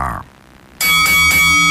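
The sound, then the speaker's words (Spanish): A boxing-style bell rings to open a contest. It is a bright metallic ring struck three times in quick succession, loud with sustained ringing tones, and follows a brief voice at the start. “Aliste sus votos y decimos que toque la campana.”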